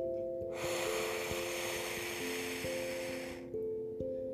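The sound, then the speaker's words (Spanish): A deep, slow breath in and out during a guided relaxation exercise, heard as a long, soft rush of air over gentle, sustained background music tones. “empieza conmigo una respiración profunda. Inhala. Y exhala.”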